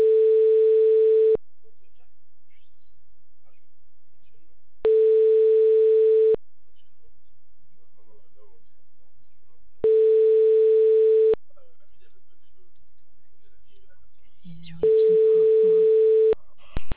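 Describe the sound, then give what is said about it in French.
A telephone ringback tone plays while an automated line transfers a call to a public works company: four evenly spaced, loud, steady mid-pitched beeps, each about a second and a half, separated by silence, with faint voice sounds overlapping the last one. “Je transfère votre appel.”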